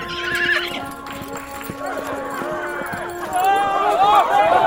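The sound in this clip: Rocinante, Don Quixote's horse, trots with steady clip-clop hoofbeats and gives whinnying neighs, the loudest near the end, while a voice speaks over it.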